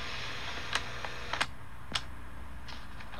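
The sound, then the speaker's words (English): A cassette tape being flipped over gives a few sharp plastic clicks and clacks, irregularly spaced over a steady background hiss. “I had to flip the tape over, and this is the last poem on this time”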